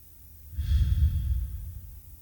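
A single soft breath taken during a meditation exercise, an airy, low rush that swells and then fades over about a second and a half.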